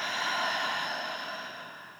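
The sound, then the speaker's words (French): A long, soft breath exhaled through the mouth during a guided relaxation exercise: one airy whoosh that starts fairly full and slowly fades away, with no talk over it. “Inspire par le nez. Expire par la bouche, relâche.”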